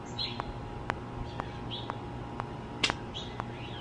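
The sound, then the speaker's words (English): Faint bird chirps outdoors amid trees and greenery: a few short, high, thin calls scattered over a quiet background, with no voices present. “I hear the birds chirping.”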